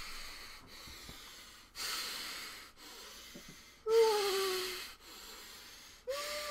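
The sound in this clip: Loud, wheezy breathing through the nose close to the microphone, in repeated in-and-out cycles of rushing air, with a few breaths carrying a thin whistling tone.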